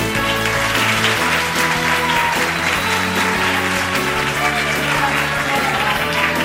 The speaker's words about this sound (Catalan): us demanem que no aparteu els ulls de l'escenari i que aplaudiu amb totes les vostres forces